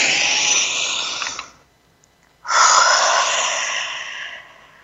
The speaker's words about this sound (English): Let's breathe that in and send that out together.